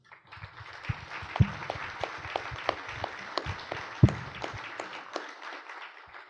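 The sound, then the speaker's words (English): Applause from an audience welcoming speakers to the stage at an Alaska World Affairs Council event, a steady wash of clapping throughout with a few sharper individual claps standing out. “So please help me welcome to the Alaska World Affairs Council stage UAA economics professor Alexander James and Larry Persily.”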